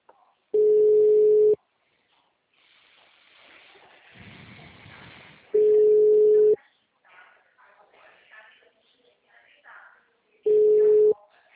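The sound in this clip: Ringback tone on an outgoing phone call: three steady, mid-pitched, loud tones, each about a second long and spaced roughly five seconds apart, with faint noise between them.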